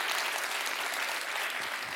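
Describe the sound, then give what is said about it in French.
Audience applause at a live show by Jérôme Niel, a thick, steady mass of clapping hands that fills the whole clip at an even level. “Qui a vu le spectacle de Jérôme Niel par applaudissement? Oh, c'est joli.”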